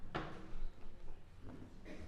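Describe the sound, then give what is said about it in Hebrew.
A chair and music stands are shifted about on a concert stage, giving a few faint knocks, scrapes and soft clunks spread across two seconds of otherwise quiet air. “אני רק אספר שאנחנו משלימים את ההכנות כאן על הבימה ליצירה הבאה שנשמע. והנה עוד הוזזת כיסא ותווים כדי שהכל יהיה מוכן.”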